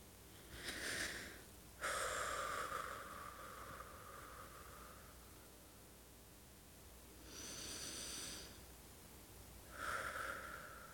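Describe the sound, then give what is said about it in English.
Slow, deep breathing during a relaxation exercise, a few long airy inhales and exhales with hissing, drawn-out breaths and quiet pauses between them. “You do feel tense. Just breathe with me.”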